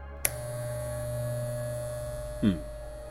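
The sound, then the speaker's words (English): Hair clippers buzz with a steady, low electric hum that stays even throughout, marked by a sharp click near the start and a brief thump near the end. “I really hope that that is a set of hair clippers.”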